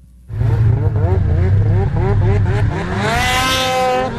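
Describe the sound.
Snowmobiles racing at a winter event in Hayward, Wisconsin: loud, continuous engine whine with wavering, revving pitch that climbs higher and brighter toward the end.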